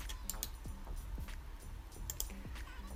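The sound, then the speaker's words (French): The control key on a computer keyboard is pressed, giving a few sharp, fairly faint clicks spaced apart, with quiet gaps between them. “je peux appuyer sur la touche contrôle. Vous voyez, tac, tac, touche contrôle du clavier.”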